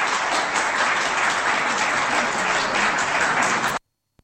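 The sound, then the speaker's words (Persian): Applause from a crowd, dense and steady clapping that holds at an even loudness for nearly four seconds, then cuts off abruptly into silence. “بله، دستم میزنن براش.”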